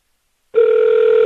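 Telephone line tone as a call to an insurance company is transferred, a steady electronic tone that starts abruptly after silence and holds at an even, fairly loud level.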